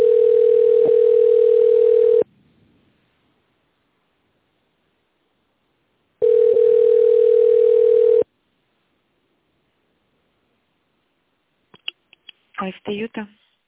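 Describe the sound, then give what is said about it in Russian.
Steady telephone tones sound while a call to a company line is being connected: two identical long tones separated by a few seconds of silence, then a brief flurry of clicks and short bursts. “We have not received a valid response. Please wait while we connect your call.”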